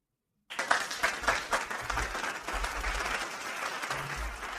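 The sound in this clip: Studio audience applause: dense clapping that starts abruptly after silence and holds steady and fairly faint to the end.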